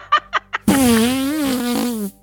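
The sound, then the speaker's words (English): A woman blows into her bare forearm to make a fart-like noise: three short puffs, then one long, loud, buzzing blast that wavers in pitch before cutting off. “sounding like just horrific farting noises. And she just keeps doing it.”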